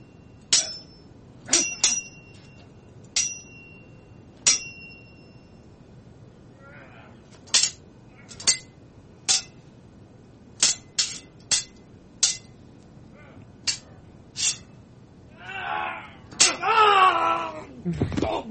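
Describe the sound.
Sword fight sound effects: many sharp metallic clangs and ringing blade strikes in irregular succession, ending in a louder, noisier burst with a wailing voice.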